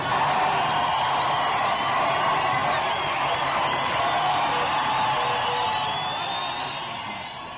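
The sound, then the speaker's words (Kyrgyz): A crowd of Mousavi supporters lining the main street in Tehran, chanting and shouting in a dense, sustained roar of many voices that holds steady and tapers slightly at the end. “Реформист Мусавинин колдоочулары Тегерандагы эң башкы жана узун көчөгө чыгып, шаардык жарган кан жолдун башынан аягына чейин кыркар тартып тизилип, уран чакырып, кыйкырып турушту.”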